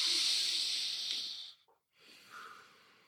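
A long, hissing breath is drawn in through the nose during a guided relaxation breathing exercise. After a brief silence comes a softer, quieter breath out. The breathing is faint throughout, with no talk.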